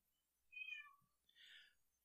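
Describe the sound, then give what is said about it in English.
A cat meows softly: a short, high chirping call, then a breathier second meow. Both are faint and heard alone. “which cat was that?”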